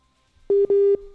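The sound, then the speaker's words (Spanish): A telephone line tone after a dropped call: two loud, steady mid-pitched tone bursts separated by a short gap, then a fainter continuous tone. No voices. “Bueno, se nos cayó la llamada, ¿no?”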